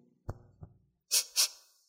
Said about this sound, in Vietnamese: Chí nhẹ hít hít mũi.